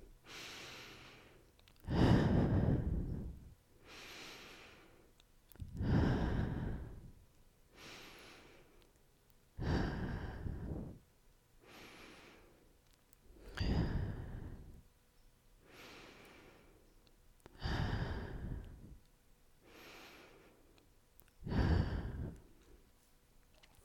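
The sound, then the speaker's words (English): Slow, deep breathing in through the nose and out through the mouth: six airy exhales at an even, unhurried pace, each with a softer inhale between. No talking is heard. “take 6 deep breaths with me, in through your nose and out through your mouth”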